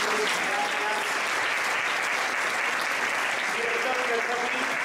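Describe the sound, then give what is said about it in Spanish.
Sustained applause from an audience for a panel of experts at a live event: dense, steady clapping that holds at an even loudness for about five seconds without a break. “Un fuertísimo aplauso para este maravilloso panel de expertos.”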